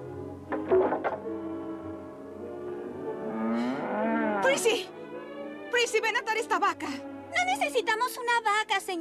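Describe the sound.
Cows low in a dubbed film scene with a cart: one drawn-out, low moo swells in the middle, while voices speak before and after it.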